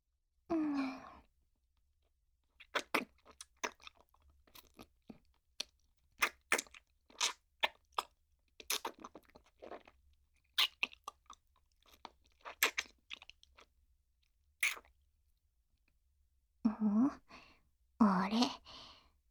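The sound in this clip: Someone eats a hard candy, with many faint, sharp crunching and chewing clicks in an irregular pattern, and soft breathy sighs at the start and end.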